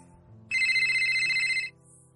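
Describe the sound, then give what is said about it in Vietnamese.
A telephone rings while a call is being placed, giving one bright electronic ring of about a second. The tone is steady and pitched with buzzy overtones, and faint low background noise comes before and after it. “Lâm Duyệt Phi đành gọi điện thoại quái rầy Giang Tùng Bích.”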